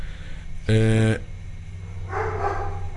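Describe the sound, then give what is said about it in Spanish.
A dog gives one loud, tonal bark, followed later by a softer, noisier sound, with voices talking nearby. “Sí, perro, sí, está bien. Es el perro Bermúdez opinando sobre el juego.”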